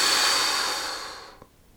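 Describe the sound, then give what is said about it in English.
A long breath blown out through the mouth during a relaxation exercise, a steady airy hiss that gradually fades to near silence, heard alone. “Take a big inhale through your nose and blow through your mouth.”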